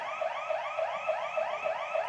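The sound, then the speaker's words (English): Alarm going off inside a church, sounding seven rapid, evenly spaced whooping chirps, each a sweeping electronic tone in a loud, insistent repeating pattern with no voices. “I cut out most of the alarm going off, and yes, the church is fine.”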